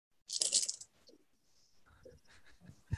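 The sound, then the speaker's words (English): Ten dice are rolled during a tabletop game, making a bright, brief rattling clatter near the start. A few faint clicks and soft sounds follow. “Okay, here we go. 10 dice to save Ocean's life.”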